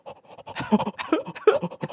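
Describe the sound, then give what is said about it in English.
A human voice imitates rapid panting with many quick, uneven, breathy huffs in a fast, irregular rhythm. “That's a lot of small breaths, but I suppose it'll count.”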